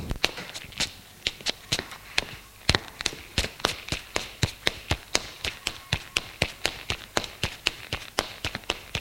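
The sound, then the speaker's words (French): Footsteps climbing white marble stairs: many crisp, hard taps in a steady, quick rhythm, heard alone without voices. “Couloir aboutit aux escaliers de marbre blanc. Elle monte au premier.”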